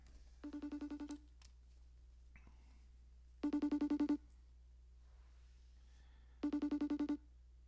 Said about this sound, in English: I'm going to dial him up right now. Let's see what happens here.